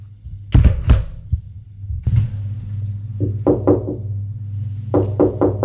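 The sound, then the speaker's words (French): Knocking on a door: a few heavy, dull thuds, then short groups of sharper, quicker raps, loud and without talk. “On a frappé à la porte.”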